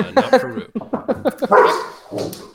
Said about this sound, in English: Dog must have heard the whine.